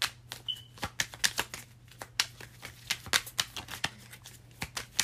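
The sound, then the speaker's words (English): Cards being shuffled and drawn for a card reading: many crisp flicking and snapping clicks in an irregular rhythm, with no talk, over a faint steady low hum. “All right. Let's get a few more cards. Let's see.”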